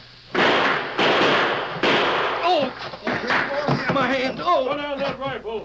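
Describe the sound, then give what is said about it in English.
Gunshots from a six-gun and rifles in a shootout: three loud, sharp blasts in quick succession, followed by men talking. “I can break this window and do more with a six gun than you're doing. Hey, that lead's coming up the floor. Keep shooting.”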